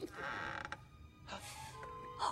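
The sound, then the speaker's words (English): Door creaking open: a few drawn-out, strained creaks with pauses between them, moderately quiet and heard alone. “The door creaks.”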